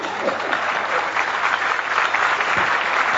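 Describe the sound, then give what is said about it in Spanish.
Audience applause at a conference lecture: a dense, continuous patter of many hands clapping holds at an even level for about three seconds, with no let-up or voices standing out. “Así que ese es un aplauso para los africanos.”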